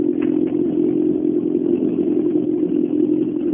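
Engine of an Opel Kadett rally car: a steady, continuous mid-pitched drone with a rough, slightly clattering texture, loud and alone without voices.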